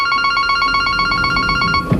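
A telephone rings in a downtown real estate agency with a rapid warbling electronic trill. The ring is steady and fairly loud and runs throughout, with a short low thump near the end.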